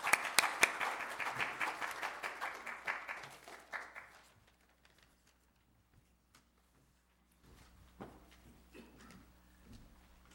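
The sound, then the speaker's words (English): Church audience clapping to welcome a visiting reverend. The brisk applause tapers off over about four seconds into near silence, followed by a few faint knocks and rustles. “Respectfully welcome Reverend Liu, and please help put your hands together to welcome Reverend Liu.”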